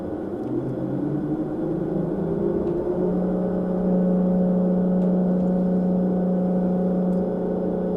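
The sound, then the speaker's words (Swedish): A simulated engine in a driving simulator drones with a low, steady hum that gets louder partway through as the vehicle accelerates, heard without voices. “Nu tar vi och testar och gasar upp lite här.”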